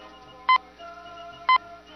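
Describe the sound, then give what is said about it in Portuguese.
Radio station time-signal beeps: two short, bright, identical pips spaced exactly one second apart, each clear and loud over a faint, steady tonal background. “O toque sinal do Rádio Bandeirantes.”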